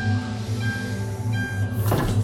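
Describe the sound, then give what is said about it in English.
Steady rumble of a passenger train running on a service between London and Edinburgh, a continuous low drone with thin tonal whines above it and a brief surge of hiss near the end, with no talking. “Welcome aboard the East Midlands train service to Edinburgh.”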